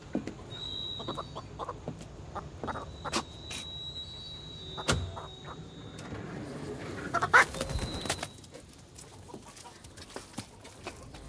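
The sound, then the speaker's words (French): Black hens crowded in a slatted crate: faint, scattered clucks and short bird calls over a low, steady background. “Une caisse à claire-voie, pleine de poules. Rien que des poules noires.”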